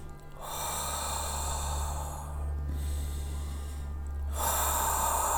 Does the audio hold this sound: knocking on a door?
no